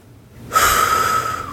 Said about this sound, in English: Deep breath.